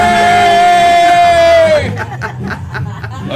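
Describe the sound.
A live studio audience calls out a long, drawn-out greeting in unison, then breaks into scattered chatter and light laughter.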